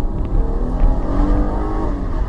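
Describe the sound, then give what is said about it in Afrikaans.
A Jeep Cherokee's 200 kW 3.2-litre V6 petrol engine accelerating, a loud, steady, droning growl with layered harmonic tones and no speech over it. “Sy 200 kW 3.2 liter V6 met 315 Nm wrinkrag is redelik hastig.”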